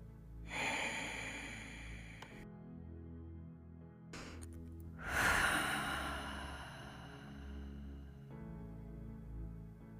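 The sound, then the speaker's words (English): Slow, deep breathing during a guided meditation: a long, airy inhale, a pause, a short sharp breath, then a long, drawn-out exhale. All of it is soft and quiet, with no talking. “So let's go ahead and do as usual and take some deep breaths.”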